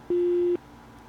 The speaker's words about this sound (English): You can speak after the beep, and we will listen to your feedback.